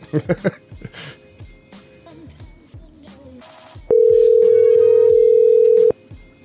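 A steady, loud telephone dial tone sounds for about two seconds while a call is being placed. It follows several short clicks and brief handling noises and cuts off abruptly.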